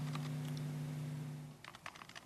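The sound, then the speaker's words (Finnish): Typing a project name on a computer keyboard: a steady low hum fades out, then a quick run of light, clicky keystrokes fills the second half. “menin tänne kirjoittamaan, että olkoon tämän projektin nimi, mitä mä teen nyt, niin Lumiukko.”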